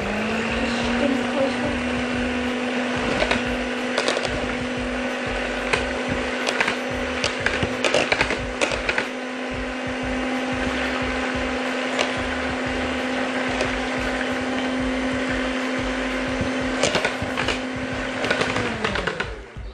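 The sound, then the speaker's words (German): Blender mixing hot butter: a steady, loud motor whir with a constant hum and scattered clicks, running throughout and winding down in pitch at the very end. “Also ja, ich mix nicht so viel, aber ich habe so Angst, dass so heiße Butter drin ist, dann mix ich einfach.”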